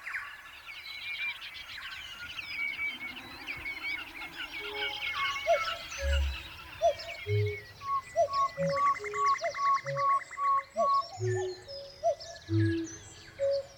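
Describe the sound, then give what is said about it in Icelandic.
Song of New Zealand wrens of the rifleman family: many rapid, thin, high chirps and buzzy trills in quick runs, with short spaced notes repeating near the end. “Þessi söngur klifurindlana því á vissan hátt upprunni nútíma fuglasöngs.”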